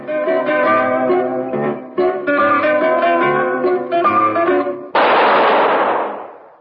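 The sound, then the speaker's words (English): A single gunshot rings out in a sewer beneath Vienna, a loud sudden blast with a long decaying tail, following several seconds of plucked zither music. “That was the shot that killed Harry Lime.”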